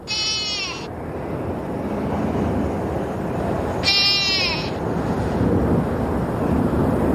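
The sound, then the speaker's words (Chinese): A blue sheep lamb cries in the mountains: two shrill, wavering bleats spaced a few seconds apart over a steady rush of wind. “天亮后，岩羊幼崽凄厉的叫声从山间传来。”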